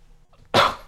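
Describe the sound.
A single sneeze bursts out on air during a radio weather report: a sudden, loud, breathy blast that fades over a fraction of a second after a quiet start.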